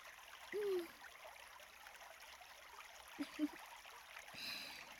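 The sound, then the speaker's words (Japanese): Water poured over a person's head to rinse off slime: a faint, continuous trickling wash that runs steadily throughout, broken by a few brief squeaky tones. “あとは頭からも水をかけてと。”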